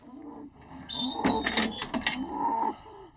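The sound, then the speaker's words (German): An Angus bull is moved into a hoof-trimming stand. A low, harmonic bellow is followed by loud bursts of rattling and clanking, then a quieter lowing tone as the noise fades. “muss der Angusbulle in den ungeliebten Klauenpflegestand”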